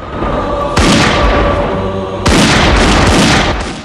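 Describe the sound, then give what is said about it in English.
Gunfire is shot through a wall into a dim corridor during a shootout. Two heavy, loud booming blasts land a second or so apart, each followed by a sustained roar of noise. “Jackie shoots through the wall into the corridor as they run down it. Light shines through the bullet holes into the dim corridor. Jay returns fire through the wall, then dives into a room as Tommy steps out and opens fire.”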